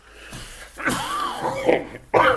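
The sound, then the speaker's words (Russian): Coughing and wheezy throat sounds from someone with a cold, a few rough, breathy bursts with a hoarse tonal edge, heard alone without talk. “Я прошу прощения за кашель, это простуда, она с Божьей помощью пройдет”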